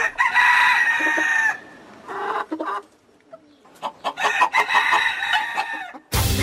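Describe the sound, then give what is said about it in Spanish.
Chickens cluck and a rooster crows in loud, repeated bursts, with short pauses between calls and a sharp noise burst right at the end. “Por lo pronto los dejo con estos pollos.”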